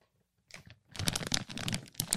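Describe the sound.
Plastic wrapping is torn and crinkled off a Preparation H wipe package. A brief silence gives way to quiet, busy crackling and rustling that continues to the end.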